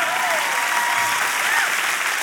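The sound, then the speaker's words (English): A church audience breaks into applause: a full, sustained wash of many clapping hands, with a few voices rising above it. “We can clap for that.”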